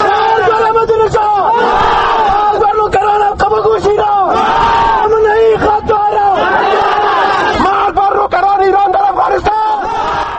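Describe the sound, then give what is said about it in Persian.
Dozens of protesters in Kabul chant loudly in rhythmic, repeated shouts on the International Day against political executions, many voices joined in a steady, forceful cadence. “این صدای ده‌ها تن از مظاهره کنندگانی بود که به خاطر تجلیل از روز بین المللی جلوگیری از اعدام‌های سیاسی در کابل دست به تظاهرات زدند.”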